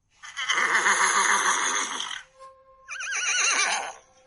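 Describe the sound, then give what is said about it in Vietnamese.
A black warhorse whinnies loudly in two long, shrill neighs, the first a broad wavering cry lasting nearly two seconds, the second shorter and quavering after a brief pause, with no talk over them. “Con ngựa đen hí dài một tiếng, tiếng hí át hết thanh âm của mọi người.”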